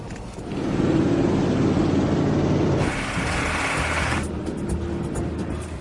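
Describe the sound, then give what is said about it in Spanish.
Engine rumble and road noise from a modified Humvee driving as a stand-in for a pressurized vehicle. The loud drone holds steady throughout, with its tone shifting partway through. “Por eso el equipo viajará a bordo de este Humvee modificado, para simular un viaje en un vehículo presurizado.”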